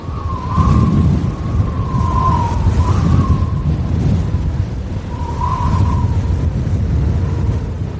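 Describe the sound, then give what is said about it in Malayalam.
Strong wind blowing with great force, a loud continuous low roar topped by a wavering howl that swells and fades a few times. “കാറ്റ് അതിശക്തിയായി അടിച്ചു”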